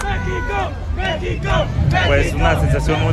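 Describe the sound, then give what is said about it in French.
Excited football supporters celebrate around a stadium before a World Cup match, with loud, rhythmic shouting and a dense babble of many voices that carries on throughout. “C'est la fiesta autour du stade. Ouais, tout ce dont on pouvait rêver, les sombreros, les drapeaux vert, blanc, rouge, des supporters déjà surexcités à l'heure du petit déjeuner ici.”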